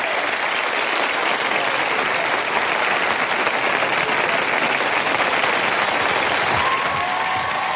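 Studio audience applause, a dense, steady wash of many hands clapping without pause throughout.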